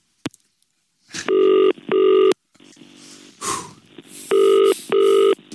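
Telephone ringback tone as a call is put through to a business: two double-burst rings, each a steady buzzy tone, separated by a short quiet gap with a faint click and some low rustling.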